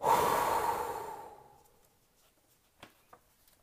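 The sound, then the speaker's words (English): A deep breath is blown out in one long, loud exhale that fades away over about a second and a half, followed by a couple of faint, brief breathy sounds. “Take a deep breath in and blow it out.”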